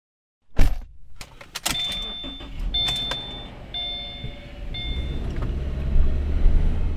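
A car driving around a neighborhood full of potholes: a few sharp knocks and clicks ride over a low rolling rumble, with faint thin whines, and the rumble grows louder toward the end.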